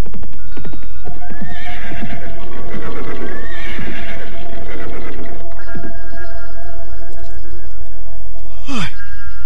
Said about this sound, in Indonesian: Dan ketika derap kudanya semakin mendekat padepokannya, tiba-tiba saja ia menghentikan kudanya secara tiba-tiba.